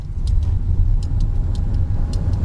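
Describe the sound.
A car being driven, a steady low engine and road rumble throughout, with a few light clicks over it.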